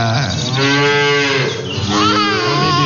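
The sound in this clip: A cow moos at morning milking time, a loud, drawn-out, deeply harmonic call filling nearly the whole stretch with only a brief dip midway, heard alone without voices.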